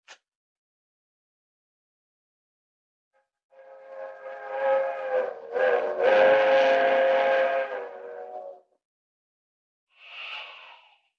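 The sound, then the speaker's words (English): A fast-moving train's whistle sounds in one long, loud, harmonic blast of about five seconds with a brief dip midway. After a pause comes a short, higher, fainter toot. “There's the train. Traveling fast, all right.”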